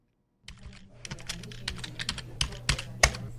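Rapid typing on a computer keyboard at a financial institution in Yaounde, Cameroon, as entries for clients' money transfers are keyed in. A steady clatter of key clicks over a low hum begins after a brief silence.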